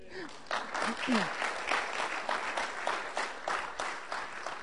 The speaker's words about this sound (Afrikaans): So ek wil net sê, let's give God a hand.